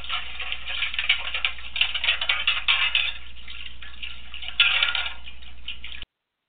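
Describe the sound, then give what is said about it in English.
Metal plates clatter and scrape in a metal wash tub on a stove, a dense run of rattling, clinking washing noise with a few louder bursts of clanking, no voices. “if you hear that sound, which is the noise made by washing metal plates in a metal wash tub on the stove, then you know it's time for a little housekeeping.”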